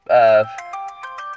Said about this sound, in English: it's my phone alarm.